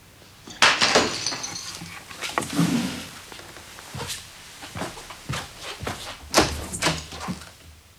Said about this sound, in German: Dir ist der Mehltopf hingefallen.